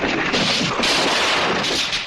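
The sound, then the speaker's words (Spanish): Loud gunfire in a western film scene where the piano player is shot, a sustained, roaring burst of noise that fills the whole moment without distinct separate shots. “En una película del oeste siempre disparan antes al pianista que al sheriff.”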